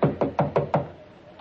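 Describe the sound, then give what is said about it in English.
Five quick, evenly spaced knocks rap on a bedroom door, hollow and fairly firm, fading into quiet right after the last one. “Better knock harder. Well, it wasn't locked.”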